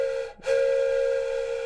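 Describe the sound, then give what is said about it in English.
A voice imitates the whistle of a train coming to a stop. A short hooted tone breaks off, and after a brief gap a longer steady hoot follows at the same pitch, fading only slightly toward the end. “That's the impression train coming to a stop.”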